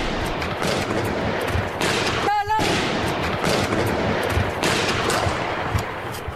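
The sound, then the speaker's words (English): Gunfire during an armed attack on a newspaper's offices in central Paris, heard from the building's roof. A few sharp bursts of shots cut through steady loud noise, and a brief shout rises above it. “To the left, over there, someone shouts, and then shots ring out.”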